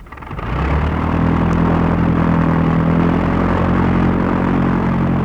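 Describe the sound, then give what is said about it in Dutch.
A propeller airplane's engine running on the ground before takeoff from an airstrip, swelling up within the first half-second into a loud, steady droning roar with a low, even hum that holds throughout. “De draaiende propeller laat zien dat het vliegtuig zich weer opmaakt om uit Angkorhoek te vertrekken.”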